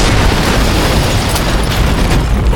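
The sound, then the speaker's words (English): Explosion blast at a mine's stamp mill: a loud, sustained roar of dense rumbling noise that fills the whole clip without a break. “Then, a huge red and yellow ball of fire bloomed inside the big building. The world shook as hell came to call at the Crown Royal Mine. The blast was so strong that the ground jumped under Stormy's”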